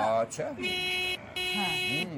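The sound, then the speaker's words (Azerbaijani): Two sustained car horn honks, each under a second, separated by a brief gap, with people talking around them. “niyə siqnal verirsən axı?”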